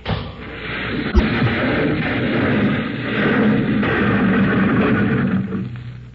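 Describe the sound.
A cable is blown up as an explosion sound effect in a 1940s radio drama, opening with a sharp crack and then a loud, dense roar that rumbles for several seconds before tapering off.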